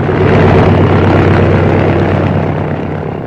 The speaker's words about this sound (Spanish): soltando el pedal del freno... el pequeño aparato se deslizó velozmente por la pista y en unos segundos alzó el vuelo.